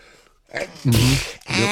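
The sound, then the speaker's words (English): A single sneeze tied to seasonal allergies, a sudden loud burst with a voiced edge after a faint lead-in, followed by a brief vocal sound. “I'm about to sneeze.”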